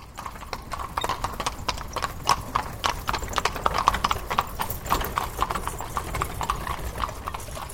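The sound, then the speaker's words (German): Horse hooves clip-clop on pavement as a horse-drawn carriage moves along, a steady, brisk run of many sharp hoof strikes with a light rattle between them. “da drüben steht jetzt eine Kutsche und die nehmen wir jetzt, damit wir zum Bundesrat fahren können.”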